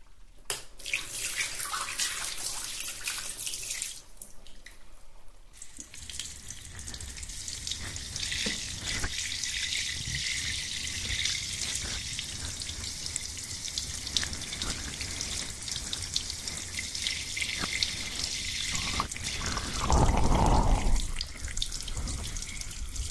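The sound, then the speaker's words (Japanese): Water pours to rinse during a milk treatment: after a few quieter seconds, a steady, loud hissing stream runs continuously, briefly swelling near the end. “流しますよ。”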